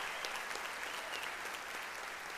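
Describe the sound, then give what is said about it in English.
An audience claps in praise during a church service: steady, dense hand-clapping applause that holds at an even level throughout, with no voices standing out. “Give the Lord a hand clap of praise.”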